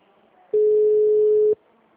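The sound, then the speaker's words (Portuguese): Ringing tone of an unanswered telephone call, a single steady mid-pitched tone lasting about one second, heard alone over faint background hiss. “Estou ligando para ele, ele não atende. Grave seu recado agora.”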